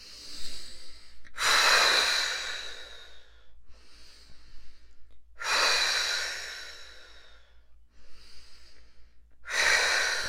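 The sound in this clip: Slow, deep breathing during a relaxation exercise, with three long, loud, airy breaths spaced several seconds apart and softer, shorter breaths in between.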